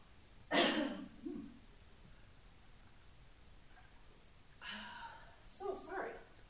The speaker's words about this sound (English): Normally don't get all choked up. Oh my goodness. Wow. I'm choking on air.